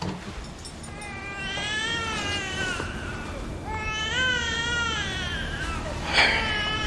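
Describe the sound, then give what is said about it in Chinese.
A baby girl cries in long, wavering, high-pitched wails: two sustained bouts with a short gap between them, then a brief, louder cry near the end. “你看这小妞在咱们这儿啥时候哭成这样了？”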